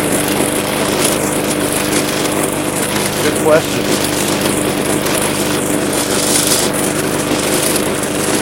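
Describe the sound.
A lawn mower engine runs while mowing a lawn, a steady buzzing drone with a constant pitch. A voice talks over it throughout.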